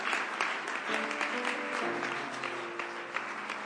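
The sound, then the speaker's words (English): Audience applause at a church missions rally, welcoming a guest speaker. Dense, even clapping continues for the whole stretch with a faint sustained tone underneath. “Please put your hands together and welcome my friend”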